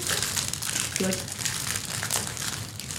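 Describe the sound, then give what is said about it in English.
A foil pack of trading cards is opened, with crinkling and rustling of the wrapper running under people talking. “I want you to open up this pack, look at the four cards, and tell me which character you most associate with.”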